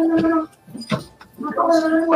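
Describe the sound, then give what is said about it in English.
A child gargles salt water aboard a ship at sea, making a voiced, bubbling gurgle in two longer bursts split by a short quiet gap with a couple of brief sounds in it. “Oh my god, where is that coming from? What is that? It's gargling salt water.”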